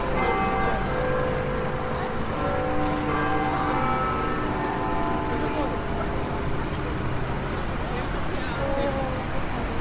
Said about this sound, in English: Big Ben, the timekeeper of the world, but mostly London.